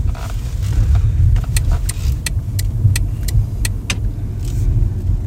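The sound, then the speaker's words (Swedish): A car drives along a residential street, giving a steady, loud low rumble of engine and road noise throughout, with a few faint, sharp high clicks partway through. “Här kommer vi, kör vi förbi nu där Benjamin är uppväxt.”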